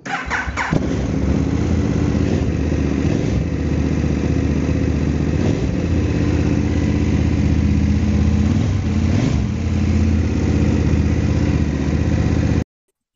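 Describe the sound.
Motorcycle engine starting: a brief crank catches and settles into a loud, steady, rumbling idle that runs evenly for about twelve seconds before cutting off abruptly.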